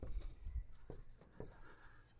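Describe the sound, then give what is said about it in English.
Someone writes during a class on Old Testament laws. A few soft, scratchy strokes come in short bursts, very faint, with quiet voices murmuring underneath. “I'm writing it”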